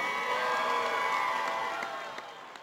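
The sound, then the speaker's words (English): A crowd cheers and claps to welcome the PWHL San Jose women's hockey team at a launch event, a loud, steady roar of voices and applause that slowly fades toward the end. “I'm supposed to ask you to make some noise and put your hands together, but you're already doing that as we officially welcome PWHL San Jose to the Bay Area.”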